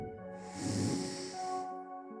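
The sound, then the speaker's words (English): A slow, deep inhale through the nose during a guided meditation, a soft airy hiss that swells and eases over a steady, sustained musical drone. “And all together, let us take a deep breath in”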